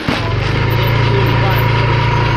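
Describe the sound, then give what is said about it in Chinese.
Motorcycle engine carrying tea along a road beside tea gardens: a steady, buzzing drone that stays loud and unbroken throughout. “现在把路修到了茶园边，茶农骑着摩托车就能轻松把茶叶运回家。”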